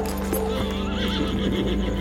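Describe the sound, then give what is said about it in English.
A horse gallops off into the darkness with rapid, regular hoofbeats throughout and a loud whinny partway through. “While Joseph grasps his head in pain, John gallops into the darkness.”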